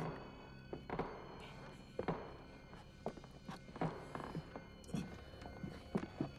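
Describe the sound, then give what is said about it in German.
Quiet, stealthy footsteps climbing a staircase inside a villa: a series of soft, muffled thuds and taps at an uneven pace, faint throughout. “Vorsichtig und mit leisen Schleichschritten betraten die 3 Fragezeichen unbemerkt Ohms Villa und liefen die Treppe in den 1. Stock hinauf.”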